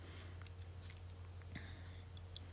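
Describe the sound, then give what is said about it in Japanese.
Faint, wet chewing of homemade tsukune chicken meatballs, with soft, irregular bites and mouth clicks under a low steady hum and no talking. “お弁当に入れる前になんかもう食べちゃってるけど”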